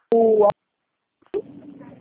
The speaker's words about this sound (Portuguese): A ligação cortou.